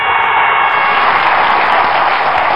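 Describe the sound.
Dense, steady applause from many clapping hands fills the whole stretch at a loud, even level, with no voices over it.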